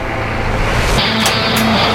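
Loud, steady engine roar of a truck, continuous for the whole clip with no break.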